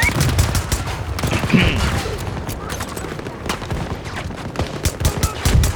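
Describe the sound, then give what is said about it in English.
M5A4 assault rifle gunfire in a video game, many sharp, loud shots in rapid bursts with brief pauses between them, repeating across the whole stretch. “The reload time seems really long. Like unreasonable. M5. Long. Yeah, the M5A4. Yeah. I mean, the gun's money.”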